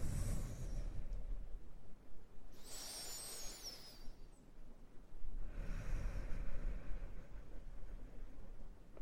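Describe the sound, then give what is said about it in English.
Deep, slow breaths taken during a guided meditation, heard as two long, soft, airy rushes of air with a quiet pause between them, faint and unhurried. “Join me in taking a few deep, slow breaths.”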